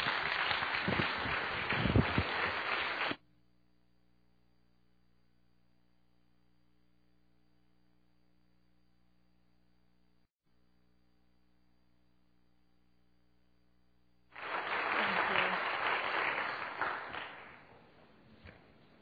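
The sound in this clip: Applause from a church audience standing to welcome a guest speaker. Loud clapping at the start cuts off into a long quiet stretch of low hum, then swells again near the end.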